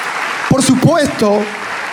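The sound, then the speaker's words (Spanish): A church audience applauding: a steady wash of clapping runs under a voice that speaks over it. “si quiere darle ese aplauso al Rey de Reyes,”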